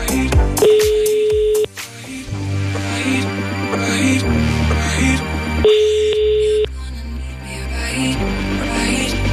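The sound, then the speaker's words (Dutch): Outgoing phone call ringing out: two steady one-second ringback tones about five seconds apart, mid-pitched and clear over a bed of background music. “Ik ga lekker vrolijk mijn vriendin wakker bellen.”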